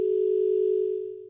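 A steady single-pitched telephone tone sounds after a phone call is cut off, a clean continuous hum that holds level and then fades out toward the end, with no voices.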